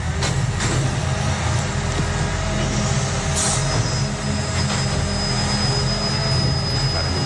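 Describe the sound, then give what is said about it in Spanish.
An old garbage truck collects cardboard containers on a city street in the early hours of the night, its loud, steady low engine rumble joined by a few sharp clanks and, later on, a thin high-pitched whine. “Un camión de recogida de basura. ¿Seguro? Te diría que es de cartón, precisamente, o sea, recogida de contenedor de cartón”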